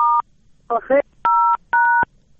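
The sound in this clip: Mobile phone keypad tones: a few short, steady electronic beeps separated by brief gaps, with a quick warbling double chirp among them.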